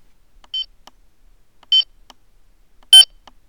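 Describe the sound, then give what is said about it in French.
Electronic talking bathroom scale beeping: three short, high-pitched electronic beeps, evenly spaced about a second apart, with silence between them. “dès que vous insérez les piles, la balance émet un bip et commence à parler en français”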